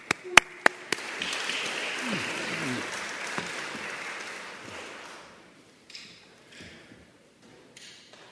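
Audience applause welcomes three panelists and a moderator to the stage at a National Braille Press event. A few sharp taps come first, then dense steady clapping for about four seconds before it thins out and fades.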